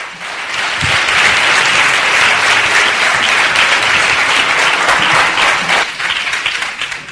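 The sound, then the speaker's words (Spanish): An audience applauds a speaker coming on at an evening talk: dense, steady clapping that swells within the first second, holds for several seconds, and eases slightly toward the end. “vamos a darle un fuerte aplauso.”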